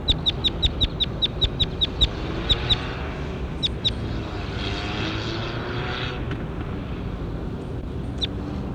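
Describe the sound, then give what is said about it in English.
A recorded bird sings a quick run of sharp, high repeated notes in the first few seconds, with a few more scattered later, over the steady low drone of a propeller aircraft. “That was bird 21. Here he is again.”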